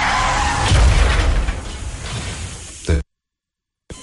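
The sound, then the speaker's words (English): A car crash heard in a seatbelt safety ad: a loud, dense burst of crunching, rumbling noise that thins out, then one sharp final impact and an abrupt cut to silence, with a brief return of sound at the very end. “But then comes the crash.”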